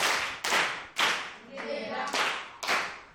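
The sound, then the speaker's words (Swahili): A group claps hands together during a Swahili grammar lesson, giving a few loud, sharp bursts of clapping in a rough rhythm with short quiet gaps between them. “Nomino za kipekee, tujipigeni makofi basi.”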